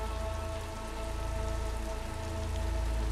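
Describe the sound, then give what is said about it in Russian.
Rain falls on broken glass and asphalt beside a crashed, smoking SUV at a tunnel entrance by a stone wall. It makes a steady, dense hiss over a low rumble and stays continuous and even throughout. “На разбитом стекле на асфальте скапливается дождевая вода.”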